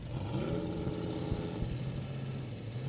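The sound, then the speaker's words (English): A Viper sports car engine at a cars and coffee meet gives a steady, low, even rumble that stays constant throughout. “This Viper could be really loud. Not too loud.”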